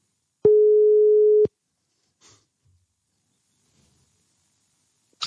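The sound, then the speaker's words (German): A single steady telephone line tone sounds as a call is placed, one flat sustained beep lasting about a second, then near silence with faint breath-like noises before a brief sound at the end. “Olli möchte ja trotzdem Hallo sagen und ich werde ihn jetzt anrufen.”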